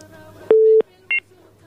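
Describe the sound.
Touch-tone dialing beeps as a telephone number is entered to place a call: two electronic tones, the first longer and steady, the second short, over a faint low hum.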